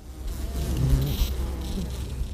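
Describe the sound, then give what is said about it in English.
Bees buzz in a California almond grove where they were brought in to pollinate. A continuous low, droning hum sits under a broad hiss, holding steady throughout. “Bees are a hot commodity for California almond farmers who've been trucking them in from all over the country to pollinate our state's lucrative almond groves.”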